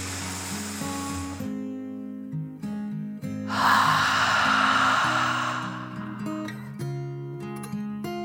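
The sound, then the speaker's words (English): Slow, deep breathing: a soft airy inhale, then a longer, fuller exhale, both drifting over gentle sustained musical tones with no voices. “took one more deep dragon breath, in and out.”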